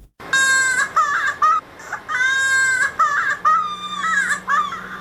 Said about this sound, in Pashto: دغه تفصیلي راپور چمتو کړی چې د یوه ماشوم په ژړا پیلېږي